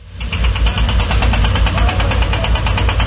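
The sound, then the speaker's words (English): Heavy machinery engines rumble steadily as diggers, cranes and lorries delivering caravans work the hills of Hebron in the West Bank: a loud, continuous low drone with a rapid rhythmic knocking pulse running throughout, and no voices. “This is the sound of the heavy machinery that's reshaping the landscape in the hills of Hebron. Diggers, cranes, and six lorries delivering high-end caravans.”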